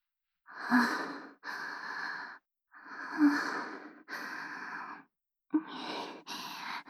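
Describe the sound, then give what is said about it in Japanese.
Deep, slow breathing from one person, three unhurried in-and-out cycles, each exhale a drawn-out audible sigh, with short pauses between breaths and no talk. “はい、深呼吸、深呼吸。変に焦ったりしないでいいからね。”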